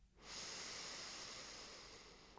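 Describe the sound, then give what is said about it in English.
Breath drawn slowly through a single nostril during alternate-nostril yoga breathing: one soft, airy hiss that starts abruptly, lasts about two seconds and fades slightly, with no talking. “Exhale through the left nostril. Inhale through the left nostril.”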